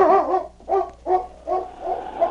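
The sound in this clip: A dog barks in six short, tonal bursts at a steady, quick rhythm, each bark loud and clear, with brief silences between them and no talking.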